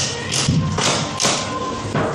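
A few dull thuds and clunks as the backrest of a liftable, lie-down school desk chair is reclined, the heavy knocks spaced irregularly over a low rustling background.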